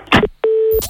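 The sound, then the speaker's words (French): A telephone call to a police station: a short burst of handling noise, a moment of quiet, then one steady mid-pitched phone tone lasting under half a second before other sound resumes. “Je vais appeler le commissariat de police parce que vous commencez vraiment à me saouler là. Ah bah, vous savez quoi, je vais les appeler d'abord.”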